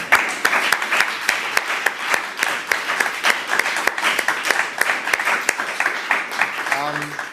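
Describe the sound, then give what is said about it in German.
An audience applauds the winners of a competition with many sharp, fairly regular claps. Voices mingle in the crowd throughout. “Deshalb auch nochmal für alle Teilnehmer einen großen Applaus.”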